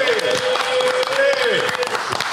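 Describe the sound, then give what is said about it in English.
Audience clapping at a live talk, with scattered sharp hand claps running under talking voices and a sustained tone at moderate loudness. “Let's clap for that. Let's clap for that.”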